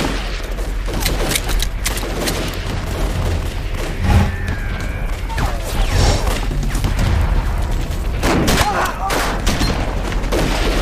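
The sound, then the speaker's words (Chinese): Heavy enemy gunfire in battle: dense, sustained volleys of rifle and machine-gun fire with occasional heavier booms, loud and continuous throughout with no pause. “敌人火力太猛，制高点都在东北手里，外面的一团和南面的二团打得很艰难，快守不住了。”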